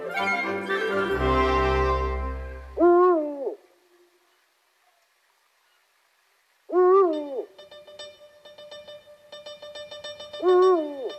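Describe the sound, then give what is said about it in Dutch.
An eagle-owl hoots in a slow series of deep, wavering calls, three separate hoots set several seconds apart with long quiet gaps between them. “in Hilversum, in natuurgebied Zwarte Berg, een oehoe is gespot. En oeh, wat was hij groot.”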